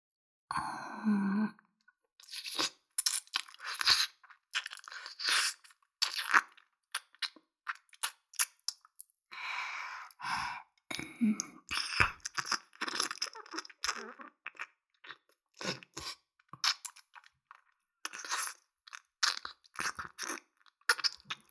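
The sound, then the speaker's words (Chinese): Ear-licking mouth sounds in an ASMR roleplay: wet smacks, clicks and slurps come in many short bursts separated by brief silences, soft and intimate in level. “差不多该换另一边耳朵了。这边也要舔了。”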